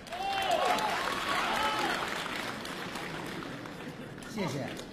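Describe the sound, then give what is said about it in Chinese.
Audience applause at a Beijing crosstalk comedy show, a dense even patter of clapping that holds steady and eases slightly toward the end, with a speaking voice over it. “谢谢大家热情的掌声， 谢谢。”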